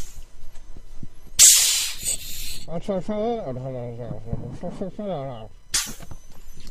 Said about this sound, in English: press these two little red triggers here that hopefully I'm showing you on the video, and you'll see these inflatable straps on the back inflate